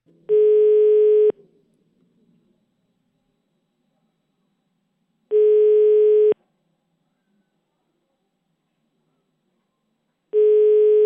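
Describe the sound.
Telephone line tone on an outgoing call: three steady, single-pitched beeps, each about a second long, separated by long silent gaps, with the last one cut short.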